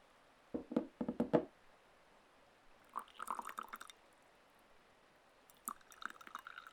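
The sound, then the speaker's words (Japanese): Tea being poured alternately into cups comes through as three quiet bursts of trickling, splashing liquid, each lasting about a second, separated by pauses of near silence. “うん、こうやって交互に注ぐとお茶の濃さが均一になるんだって。”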